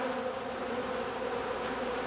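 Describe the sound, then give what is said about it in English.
Bees buzzing steadily, a continuous droning hum that holds an even pitch and loudness throughout, with no voices. “bees lead a very busy life. That's right, LeVar, and let's let them get back to work.”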